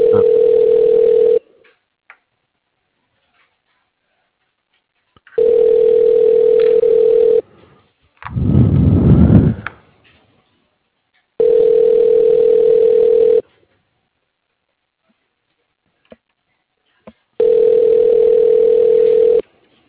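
Ringback tone of an outgoing telephone call before voicemail answers: four long, steady tones at regular intervals with silent pauses, and a brief noisy rumble between the second and third tones.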